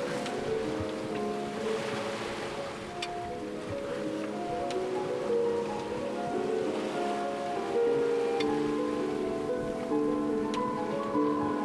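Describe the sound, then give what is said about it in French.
Waves and water wash steadily around a sailboat heading west across the open sea at midday. The sound is a continuous, even rush with no voices. “Nous naviguons plein ouest.”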